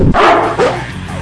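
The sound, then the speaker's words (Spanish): A neighbour's dog barking, a few loud, rough barks in quick succession that fade slightly toward the end. “Es el perro del vecino.”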